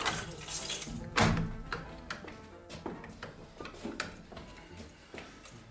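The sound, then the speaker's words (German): A cellar door is unlocked and opened, heard as many fairly faint sharp clicks and rattles of keys and lock, with one heavier thunk near the start. “Schließen Sie uns noch den Keller auf.”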